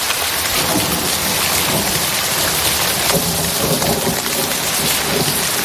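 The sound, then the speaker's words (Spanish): Thunderstorm with rain under a dark sky with lightning: a loud, dense, steady hiss of heavy rainfall with a deep rumble of thunder beneath it, with no voices. “la primera sorpresa ha sido ese cielo violentamente oscuro, con rayos de colores en el horizonte. Si algo me apetecía más que la sintonía del programa era este sonido.”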